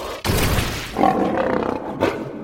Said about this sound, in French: Et aussitôt, un lion apparut devant le chat.